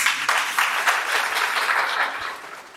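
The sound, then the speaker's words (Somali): An audience at a graduation ceremony applauds with steady, lively clapping that stays fairly even throughout and tapers only slightly near the end. “Dhammaan kasoo qaybgalayaashii ardadana waxaan ka codsanayaa inaad hal mar igu saxbisaan insha Allah.”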